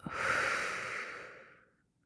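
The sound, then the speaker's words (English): A single deep breath at the end of a guided breathing exercise, airy and breathy, swelling quickly and then fading gradually into silence over nearly two seconds, with no talk. “Breathing in and out. And a final deep breath in and out.”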